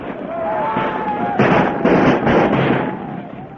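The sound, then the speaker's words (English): Musket fire rings out as British troops and American militia exchange shots, with a few sharp, broad cracks in quick succession. A voice speaks alongside the volleys. “Behind every wall, hidden in every farmhouse, crouched back of sheds and behind rocks, the American militia returned the fire.”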